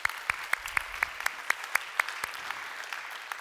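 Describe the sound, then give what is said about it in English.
A church audience claps in steady, rhythmic, fairly faint hand claps, many of them evenly spaced, over a soft background hiss. “So if you guys here at North Garnett would you put your hands together? Welcome in our online family.”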